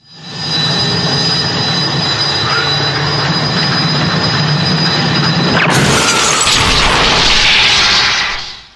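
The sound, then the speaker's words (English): A science centrifuge spins up to ultra spin drive with a loud, steady whining roar that suddenly jumps to a harsher, brighter rushing hiss, then cuts off. “Engaging science centrifuge. Commence ultra spin drive now.”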